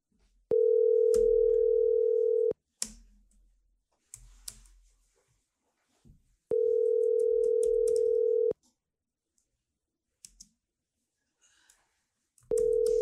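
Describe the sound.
Ringback tone of an outgoing telephone call: a steady, mid-pitched hum lasting about two seconds, repeating after roughly four-second gaps, with the third tone cut off at the end. Faint clicks sound in the pauses.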